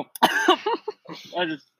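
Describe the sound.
Coughing from choking on a dry saltine pizza crust: a few short, harsh, throaty bursts broken by brief pauses, mixed with throat clearing.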